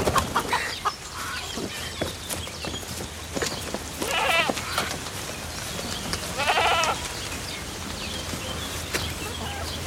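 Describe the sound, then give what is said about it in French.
A lamb bleats twice midway through, each a wavering, quavering cry. A constant noisy background runs underneath with scattered faint clicks. “Petit agneau de Dieu qui enlève les péchés du monde. Il est pas mignon? Tu peux le porter?”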